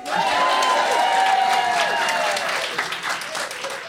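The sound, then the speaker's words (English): A live show audience applauds and cheers. Loud, dense clapping is mixed with whoops and starts at full strength, then eases slightly toward the end. “Just so you hear it again, there's that live audience again.”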